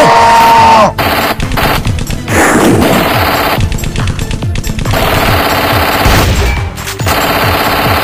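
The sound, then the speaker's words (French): Gunfire from a loaded weapon in an ambush: many loud, rapid shots in dense, overlapping bursts that continue throughout, with a thin steady tone briefly audible at the very start. “Je vais charger mon arme. Doucement. Je crois que je leur fais peur. Adieu mec, bonne chance. Feu.”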